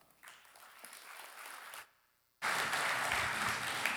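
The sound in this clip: Audience applause welcoming a speaker: a soft patter of clapping builds for under two seconds, stops in a brief silence, then comes back as a much louder, dense wave of applause.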